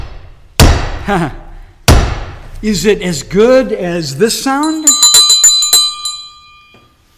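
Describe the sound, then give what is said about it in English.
Ringing metal from a hammer striking an iron sword laid on an anvil: two sharp, loud blows ring out, then a voice talks, followed by high, sustained bell-like metallic tones that slowly fade. “and I'm having us hear the ringing of that metal, that iron, that with a sword in between the hammer and the anvil”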